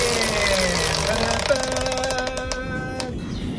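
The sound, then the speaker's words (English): A game-show prize wheel spins, its pointer ticking rapidly in a steady run of clicks that thins to a few sparse ticks near the end, over a sustained musical backing. “We're going to spin the wheel to choose the category. Do you want a big spin or a little spin? Big spin. Big spin!”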